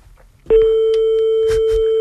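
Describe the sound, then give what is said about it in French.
Telephone ringback tone on an outgoing call: after a brief quiet start, one steady, even tone begins and holds unbroken to the end, with faint scattered noises behind it. “Alors, oui, c'est Bernard qu'on appelle.”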